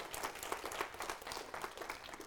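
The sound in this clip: Steady applause from a church audience welcoming a woman speaker up to the front, a dense, even patter of many hands clapping that holds at a moderate level throughout.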